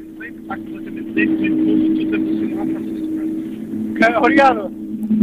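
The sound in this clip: A Porsche rally car's engine on a dry rally special stage: a steady droning engine note runs under continuous talk, then rises into a sharp revving surge near the end.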